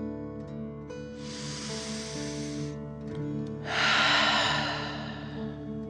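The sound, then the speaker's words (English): A slow, deep breath in and then out during a guided meditation: two long airy breaths, the exhale louder, over a soft, steady musical drone. “Feel the warmth and take another deep dragon breath in and out.”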